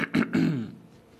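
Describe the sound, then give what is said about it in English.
A person clears their throat on request: two quick rough bursts, then a longer guttural rasp that fades away, with no talk. “Clear the throat.”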